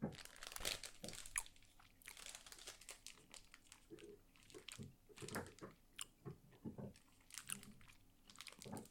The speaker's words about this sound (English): Oh, it's like fruit leather grape. Okay, here we go. Let's have some gummies.